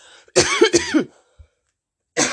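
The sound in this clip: Coughing from allergies: two rough, throaty coughs in quick succession, a short silence, then one more cough, fairly loud and with no talking.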